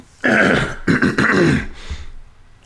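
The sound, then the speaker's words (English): Someone clears their throat hard to bring up phlegm, giving a few loud, harsh, rasping bursts and then a fainter, shorter rasp. “It's the phlegm, you know, I gotta get it up on my throat.”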